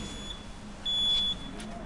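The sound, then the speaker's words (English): Buzzer on a security side gate at the Scottish Parliament as it opens: a steady high electronic tone that grows louder for about half a second in the middle, over a low background rumble. “That's the sound of the gate opening.”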